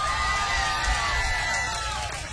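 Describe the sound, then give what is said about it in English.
Audience cheering at a live jazz concert, a dense crowd roar with whoops and shouts that holds fairly steady and moderately loud throughout, fading slightly at the end. “Another round of applause.”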